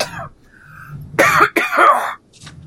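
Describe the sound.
A person clears their throat and coughs in loud, rough bursts, with two main heavy coughing spells after a short throat clear, ending with a faint trailing rasp.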